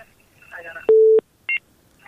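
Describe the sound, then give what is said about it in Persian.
Telephone tones sound as a caller is connected to a live call-in program. A faint voice comes briefly, then a steady mid-pitched tone lasts about a third of a second, followed by one short, higher beep. “و تماس دیگر هم میگیریم، یک تماس دیگر هم میگیریم اگر تماس هست، امی تماس هم میگیریم.”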